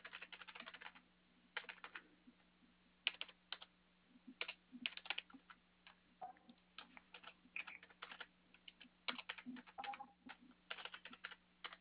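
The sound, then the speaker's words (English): Fingers typing on a computer keyboard: many quick, faint keystroke clicks in uneven bursts with brief pauses, over a low steady hum. “I only type it in once, and I click submit.”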